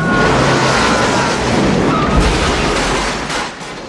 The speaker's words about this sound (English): backs the car through the wall of the motel room